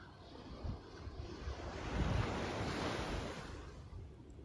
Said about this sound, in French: Et vous pouvez aussi vous laisser porter par le son des vagues, apaisant, relaxant.